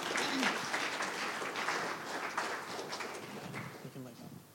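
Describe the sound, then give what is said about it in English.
An audience at a church gathering applauds to welcome a speaker, a dense, steady patter of clapping that softens slightly toward the end. “Okay, over to Josh now. Let's give him a hand as he comes.”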